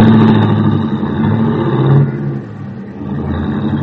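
A taxi cab's engine pulls away with a steady, loud motor rumble that dips briefly midway and then carries on, with no voices.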